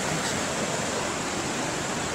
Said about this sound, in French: donc là c'est la rivière.